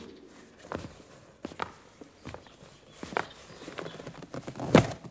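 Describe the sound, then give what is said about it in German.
Footsteps climb a flight of stairs as a few irregular, soft thuds, faint overall, with one heavier step near the end. “Jetzt gehen die wohl die Treppe rauf.”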